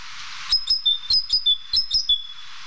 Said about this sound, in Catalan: El cant de la mallerenga és interpretat de diferents maneres.